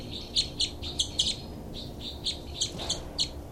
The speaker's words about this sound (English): Both birds here.